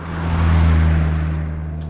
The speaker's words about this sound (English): It's near freezing at night and is rarely quiet. Cargo trucks are roaring by.